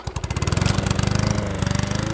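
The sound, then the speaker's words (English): A push lawn mower's small engine runs while cutting grass in the yard of a white ranch home in a Kentucky valley, giving a loud, steady chugging drone with rapid regular pulses and no voices. “pushes a lawnmower in front of his white ranch home in a holler”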